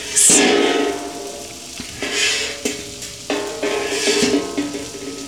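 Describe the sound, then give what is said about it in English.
Rabbit pieces sizzling in olive oil in a pan, with a steady frying crackle broken by repeated scraping stirs and clatters of a utensil against the pan. “I've seared those off in a pan in some olive oil just to brown them, and now I am sauteing.”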